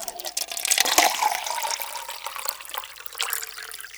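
Water is poured out to drink, giving a steady splashing trickle that starts louder and then settles into a softer, even flow.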